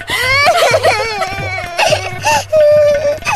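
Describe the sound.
An infant with a fever and an aching ear cries in loud, wailing bursts, the pitch wavering and breaking between sobbing gasps.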